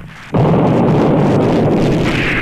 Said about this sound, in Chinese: 山谷间回荡着炮声，一颗炮弹爆炸